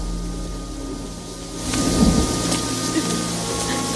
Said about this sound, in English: The rain's pouring down in the cemetery, where Ellen's walking around amongst the graves.